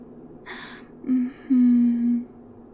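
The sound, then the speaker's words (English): Breathing: a sharp airy inhale, then two voiced, moaning exhales, the first short and the second longer and louder, with no talk. “Let thyself breathe. Just breathe.”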